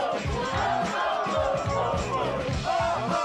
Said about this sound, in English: They hug each other, the students cheer and then they all dance.